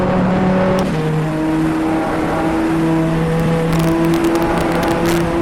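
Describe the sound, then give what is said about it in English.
A race car engine drones as the car accelerates hard out of the Arnage corner. The loud, sustained engine tone shifts pitch in steps, and no voices are heard. “Bring it in tight and feel the rear end step out just a little bit there. Hard acceleration coming out of the Arnage.”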